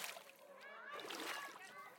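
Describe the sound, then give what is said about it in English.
A splash of someone jumping into a swimming pool: a burst of water at the start, then sloshing and bubbling churn that lasts about two seconds at a fairly even level. “Angie arrived at the pool and jumped in the water.”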